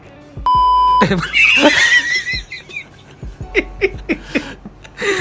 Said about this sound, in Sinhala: අයියෝ දැන් ඒකට බීප් ඇද්දා. බීප් ඇද්දා.